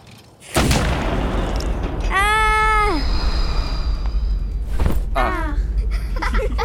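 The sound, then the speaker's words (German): A moon cannon fires a cockchafer: two loud booms, the first near the start and the second about four seconds later. Between them comes a wavering, harmonic cry like a meow, and a shorter chirping tone follows the second blast. “Diese Geschichte wird mich für alle Zeiten zum Helden aller Maikäfer machen. Noch nie ist ein Maikäfer aus einer Mondkanone geschossen worden.”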